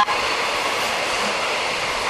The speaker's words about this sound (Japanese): 5番線より特別快速湘南新宿ライン高崎行き発車いたします。